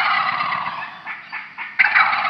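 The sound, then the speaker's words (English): A wild turkey gobbles loudly in a rapid, rattling warble that pulses through several quick bursts before a final strong surge, with no voices present. “Other than the bald eagle, it's hard to think of a more universally well-known bird than the wild turkey”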